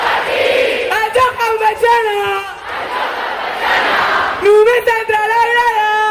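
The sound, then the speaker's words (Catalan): Thousands of fans cheering and chanting with Barça's women's team as the players celebrate their Champions League title on Avinguda Maria Cristina. Loud, sustained massed voices swell and sing throughout, with a brief dip midway. “És el so de les jugadores del Barça celebrant la Champions davant de més de 10.000 aficionats que es van aplegar a l'Avinguda Maria Cristina.”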